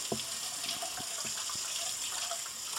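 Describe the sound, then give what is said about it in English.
Water runs from a tap while hands are washed during baking, a steady, soft rushing hiss with a few light knocks and splashes mixed in throughout. “All right, now I have to wash my hands”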